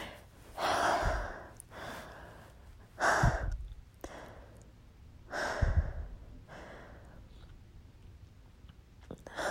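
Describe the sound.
Heavy, out-of-breath breathing from one person: three loud gasping breaths with softer, ragged breaths between and after them, with no talk.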